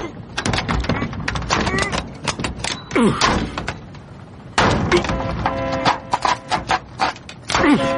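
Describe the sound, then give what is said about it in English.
A crowbar prying at a door's bottom hinge makes repeated metallic knocks, scrapes and heavy thuds, with people talking throughout. “Crowbar. Here. Do the bottom hinge first.”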